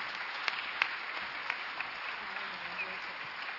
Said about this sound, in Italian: Io lascio il coordinamento a Mario Piatti, al quale farei un bel applauso